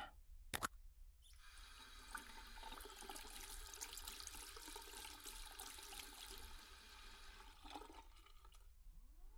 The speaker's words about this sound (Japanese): その前に手を洗って。